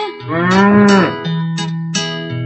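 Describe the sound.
A cow moos: first a long, strained call with a falling tone, then a lower, drawn-out lowing with brief breaks. The calls are loud and stand alone with no other sounds.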